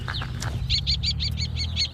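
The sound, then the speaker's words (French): A common kestrel calls while hunting over a fallow field, giving a rapid, evenly spaced run of about eight sharp, high-pitched 'kee' notes over a low, rumbling background. “Ah, c'est un faucon cresserel.”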